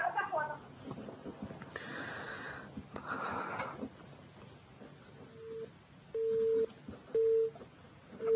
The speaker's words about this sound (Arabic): قطع الاتصال وليته يكون الاخير